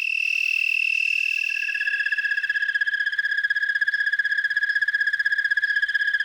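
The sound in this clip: Fiddler insects sing just before sunset after a light frost, when they lower the pitch of their song. A continuous, rapid, high-pitched pulsing trill holds steady throughout, with no other sounds.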